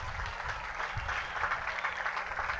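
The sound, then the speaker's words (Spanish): Audience applause at a municipal accountability event in Flandes, Tolima, an even, moderately quiet stream of clapping that continues without pause and has no talk over it. “como es el doctor Teléfono Bernal Velázquez, para quien pido un fuerte aplauso.”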